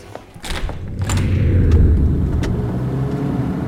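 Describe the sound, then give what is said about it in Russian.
Car engine running: a few sharp knocks and thuds at the start, then a steady low engine rumble that continues to the end. “В машине Поливановой.”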